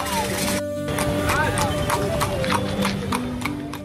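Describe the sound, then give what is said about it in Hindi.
Horses trot while pulling carts in a traditional horse-cart race, a fast, steady clip-clop of hooves under people talking. “हजारों दर्शकों की मौजूदगी में घोड़ों ने अपनी शानदार चाल, संतुलन और अनुशासन का ऐसा प्रदर्शन किया कि हर कोई मंत्रमुग्ध हो गया।”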